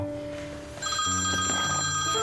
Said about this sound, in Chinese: 接吴桐的电话。